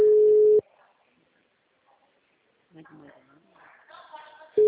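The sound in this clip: A telephone ringback tone sounds while a call is being placed: a steady, loud pitched tone at the start and again briefly at the end, with faint speech in between.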